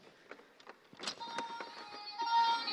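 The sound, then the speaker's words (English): A toy emergency vehicle prop gives off its electronic siren as a thin, steady tone with high whining overtones. A few faint clicks come before it, and the whole sound stays quiet. “This is a Martha to me. This emergency vehicle that's giving off an incredible sound.”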